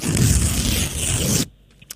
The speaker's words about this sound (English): So I'm going to rip over the envelope and then we'll see what's in the prize, okay? Here we go.